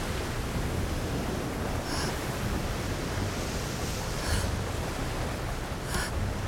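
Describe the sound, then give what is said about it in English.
Ocean waves splash and wash in a steady, broad hiss, overlaid with wind buffeting the microphone. A few brief, brighter splashes stand out from the surf. “Water splashes her. A large wave hits her and she nearly falls.”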